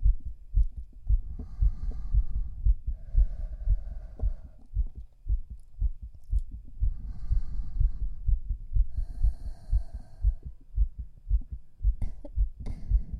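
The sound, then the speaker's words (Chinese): Fast heartbeat heard with an ear pressed against a person's chest: steady, rapid, low thumps throbbing evenly throughout, with no talk. “你怎么心跳的这么快？”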